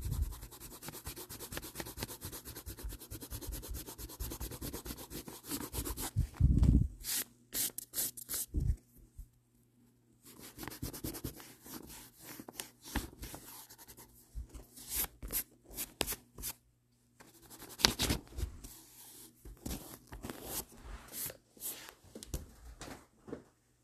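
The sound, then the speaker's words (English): Pencil drawing on paper: long runs of fast, dry, scratchy strokes rub and rasp in dense bursts, broken by a couple of brief pauses, with no talking. “Sorry that I'm not talking a lot, it's just that I'm focusing on my drawing right now.”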